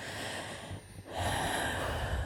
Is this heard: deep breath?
yes

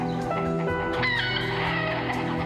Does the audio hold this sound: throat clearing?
no

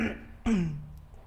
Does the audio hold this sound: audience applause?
no

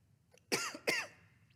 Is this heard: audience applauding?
no

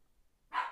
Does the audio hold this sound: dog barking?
yes

